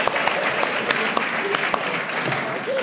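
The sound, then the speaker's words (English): Audience applause at a home group meeting, thanking the members who stay to help clean up. Dense, steady clapping fills the whole clip at an even level, with no talk over it. “Now let's give a round of applause to the home group members who are going to stick around and help clean up.”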